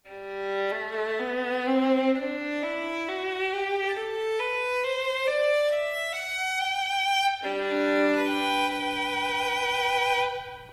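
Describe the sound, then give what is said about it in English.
A violin made by Guadagnini in 1757 plays alone, rich in overtones, stepping up through a slow rising line of sustained notes before dropping back to a lower register near the end. “It's a Giovanni Battista Guadagnini, forgive the pronunciation. It was made in 1757, and it sounds like this.”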